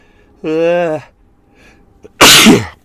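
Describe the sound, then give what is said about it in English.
A single sneeze from a light-sensitive person: a drawn-out voiced gasping 'ah' buildup, a short pause, then one loud, sharp, breathy burst. “I'm going to sneeze.”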